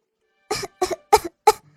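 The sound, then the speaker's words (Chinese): A voice imitates a rabbit coughing in a bedtime story: four short, throaty cough bursts, grouped in pairs and separated by brief silences. “兔子咳了两声”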